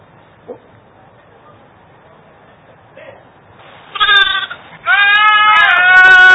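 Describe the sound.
A goat that walks on two legs because of a disability bleats: two loud, harmonic calls near the end, after a long quiet stretch with only faint scattered noises.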